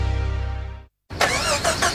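A car engine cranks but fails to start because of a weak battery, giving a steady pulsing chug for about a second before it cuts off abruptly into silence.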